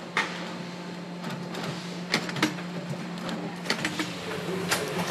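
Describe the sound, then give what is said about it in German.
Sewing machine stitching a test version of a shoe in shoe production, with a steady low motor hum under scattered sharp mechanical clicks and ticks; no talk is heard. “In der Produktion lassen sich die beiden eine Testversion nähen.”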